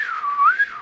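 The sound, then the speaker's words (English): A person imitates a theremin with one eerie, wavering tone that glides down, swoops back up, then falls away at the end, heard alone. “The theremin is that very strange space-age instrument that you actually never touch. You just sort of wave your hands around it, and it goes”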